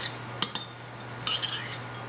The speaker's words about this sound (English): So in goes our ginger and garlic, about a teaspoon, a fourth of a teaspoon of the habanero and bell pepper chutney. Give that a mix.